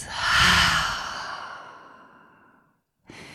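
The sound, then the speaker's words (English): A deep, slow exhale through the open mouth, with a long airy rush that swells and then gradually fades over more than two seconds. A short pause follows, then a faint new breath noise begins. “Now we're going to take another deep full breath. Open the mouth. Exhale it out.”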